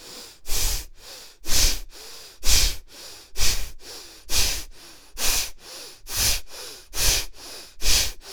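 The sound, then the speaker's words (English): Forceful exhales from a deep breathing exercise, each a loud, breathy rush of air, repeat in a steady rhythm of many strong puffs with softer breaths between them. No talking is heard. “Allow yourself to exhale, exhale, exhale. You're throwing out all the carbon dioxide.”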